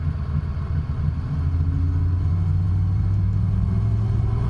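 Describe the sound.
A car engine rumbles as the vehicle drives off again after a loose electrical contact, a low steady drone that grows louder over the first second and then holds evenly, with no talking.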